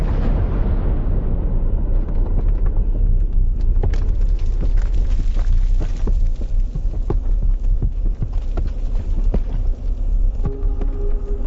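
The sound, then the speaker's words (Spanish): A volcanic eruption rumbles as a loud, continuous deep roar, with a throbbing low end and scattered sharp cracks and pops through it, the whole sound staying steady to the end. “Después resuena una erupción.”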